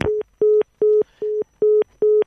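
Telephone busy tone after a dropped call: six short, steady beeps of a fairly low pitch, evenly spaced with brief silences between them in a quick, regular rhythm.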